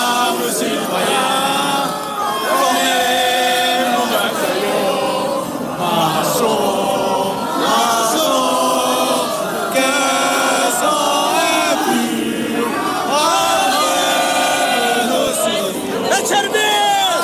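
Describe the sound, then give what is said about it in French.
A large crowd on Place de la Concorde, gathered to welcome France's national football team, sings La Marseillaise in loud, continuous unison for the whole stretch. “La Marseillaise derrière moi. Eh oui, la Marseillaise qui commence à être entonnée. Bah, on peut l'écouter.”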